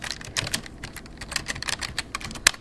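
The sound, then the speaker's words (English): Rapid keystrokes on a computer keyboard as a command is typed at a DOS prompt to start Windows 3.1, many crisp plastic clicks in an uneven, quick rhythm with one sharper key strike near the end. “Okay, I'm gonna... I'm gonna type CD space Windows.”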